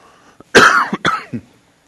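Coughing from allergies: a short, loud burst of several harsh, dry coughs in quick succession, the first the strongest and the last ones smaller, alone in a quiet background.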